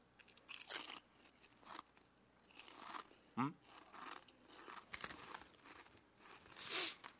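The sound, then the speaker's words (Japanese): Someone eats food seasoned with shichimi, crunching and chewing. A few sharp, crisp crunches stand out among softer, irregular chewing sounds, all fairly faint. “よし食べてみよう”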